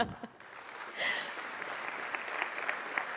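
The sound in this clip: Audience applause welcoming a speaker at a church ministry event: after a short voice, steady clapping swells and continues evenly to the end.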